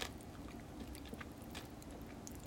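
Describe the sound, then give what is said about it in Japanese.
Chewing a cola-flavoured popping gummy candy with a lime-flavoured gummy centre: soft, continuous mouth sounds dotted with tiny crackling pops, faint and steady throughout, with no talk. “でも中のグミがライム味なのは爽やかで美味しいです。”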